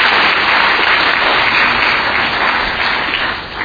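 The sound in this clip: Audience applause welcoming a guest speaker from a ministry, dense and loud steady clapping filling the whole span and easing slightly near the end.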